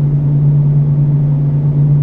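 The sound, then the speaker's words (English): Car engine droning steadily in fifth gear while cruising with the windows up. A loud, low, even hum holds a constant pitch throughout, with no revving. “See how high we can rev in third. It's in fifth right now.”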